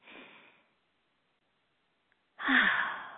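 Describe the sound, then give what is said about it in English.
A group breathing deeply together: a soft breathy sound, then a silent pause, then a louder, fuller breath that fades gradually. “let's all take a breath. I'm so excited. I get so effused. All right, let's all take a breath.”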